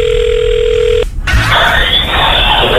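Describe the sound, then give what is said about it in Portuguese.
An outgoing telephone call ringing on the line: a steady, even tone lasts about a second, then after a short break comes a wash of hissing line noise. “Vamos ver agora, vamos ligar pra ele de novo.”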